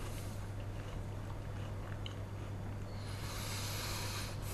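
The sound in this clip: Crunchy biting and chewing of battered food dressed with a gastric of vinegar and sugar boiled together, heard as a steady, close mouth-noise texture over a constant low hum, with no talk.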